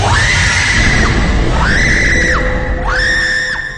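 Three drawn-out, shrill screams in a horror radio drama. Each one rises sharply, holds, then drops away, over a loud rumbling bed.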